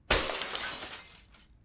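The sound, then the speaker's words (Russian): A glass vase shatters in one sharp crash, followed by a bright tinkling spray of fragments that slowly fades. No voices accompany it. “За то, что ты разбил вазу. Какую вазу? Да вот эту.”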